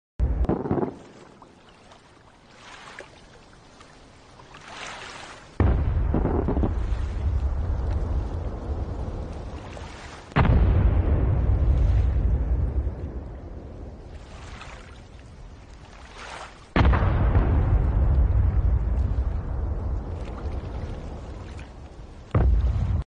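Heavy missile explosions strike an aircraft carrier: a few loud, booming blasts, each with a sudden onset and a deep rumble that fades slowly over several seconds. A final short burst arrives at the very end.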